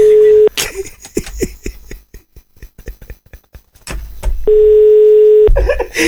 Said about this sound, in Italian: Squilla, ah, sta squillando, sta squillando.